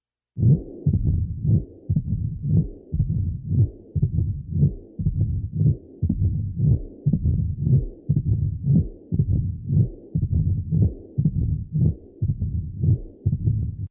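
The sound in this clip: Heartbeat heard through a stethoscope at the apex over the mitral valve, with mitral stenosis and a typical systolic murmur: a long, steady run of regular low thudding beats, each followed by a soft whooshing sound, with no other sounds.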